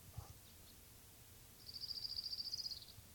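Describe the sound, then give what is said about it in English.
An orange-crowned warbler sings a faint, high, rapid trill of evenly repeated notes lasting just over a second, over steady low hiss and rumble. “Orange Cone Warbler number 2.”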